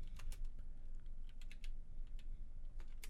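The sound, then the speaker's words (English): Rapid clicking keystrokes as a search is typed on a computer keyboard, the taps running in a quick, uneven, continuous stream at a soft, steady level, alone. “So I guess I'd better type wrestler first.”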